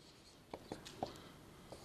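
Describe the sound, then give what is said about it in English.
Faint scratchy strokes of writing on a board come through as a few short, soft scrapes spaced irregularly over low background hiss. “So I'm going to write here expected inflation.”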